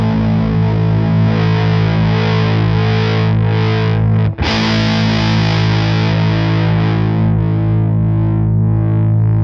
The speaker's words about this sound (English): And then I'll strum a chord and I'll just sweep the tone.